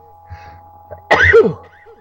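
One sudden, forceful human sneeze bursts out after a quiet stretch with a faint low hum and soft breathy noises. It peaks sharply and then fades quickly.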